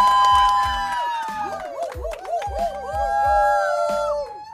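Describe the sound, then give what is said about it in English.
A live audience cheers and makes noise with long howling whoops that overlap and waver in pitch, loud and sustained over a steady low pulse. “Now, what you hear in the background is it's a special episode where we're actually going to have, you know, a live audience. Live audience, make some noise.”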